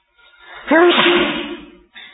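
A single sneeze during a religious study session: a faint in-breath build-up, then a loud voiced burst that trails off over about a second, followed by a brief soft noise.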